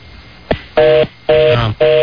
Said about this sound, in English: His phone ringing.